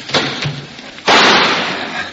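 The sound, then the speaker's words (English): A single gunshot fired from a window: one sharp, loud crack with a rough, decaying tail after softer background noise. “Let me try a shot before those jokers get smart and rush it.”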